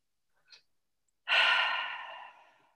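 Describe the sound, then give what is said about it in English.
A deep breath in a group pause comes as one long, breathy exhale that starts strongly and slowly fades away, preceded by a faint, brief intake. “Let's take a breath or two.”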